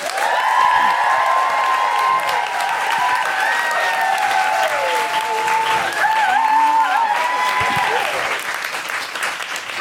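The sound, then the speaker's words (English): Audience at a live comedy show applauding and cheering for a guest comedian: continuous loud clapping with whoops and high cheering voices riding over it, holding steady throughout. “Put your hands together and make big guilty feminist woohooing noises for Roisin Conaty.”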